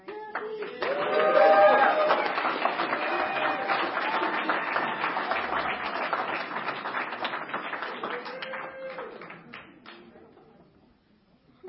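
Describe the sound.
Applause welcomes a speaker at an Alcoholics Anonymous meeting, steady sustained clapping that swells early, holds for about ten seconds, then thins and fades out.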